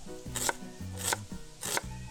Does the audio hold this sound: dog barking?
no